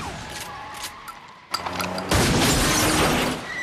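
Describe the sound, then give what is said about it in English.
A shotgun blast shatters the back window of a fleeing car. A sharp burst is followed by a loud, sustained wash of crashing, breaking noise that lasts well over a second. “He blasts out one of the back windows.”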